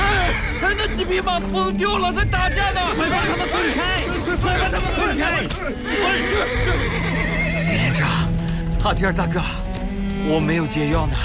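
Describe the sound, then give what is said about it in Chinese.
Horses neighing and fighting after being maddened by a toxic grass at a horse farm: many loud, overlapping whinnies and squeals run continuously, with a babble of voices mixed in underneath. “那几匹马疯掉了，再打架呢！快把他们分开！”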